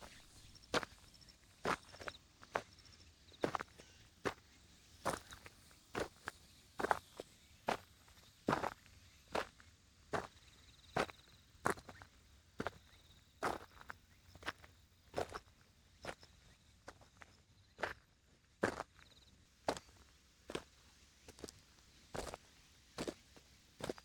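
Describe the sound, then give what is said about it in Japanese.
Slow footsteps on stones in a garden: many evenly spaced, crisp steps in a steady unhurried rhythm, each a short crunchy tap, with no voices. “足音です。庭先をこうやってゆっくり歩くことで出る音がとても癒されますよね。”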